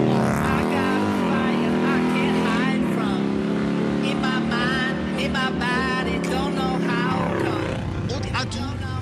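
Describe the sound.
A light sidecar motorcycle's engine drones loud and steady throughout, with a low pulsing hum that swells in places, and voices talk over it.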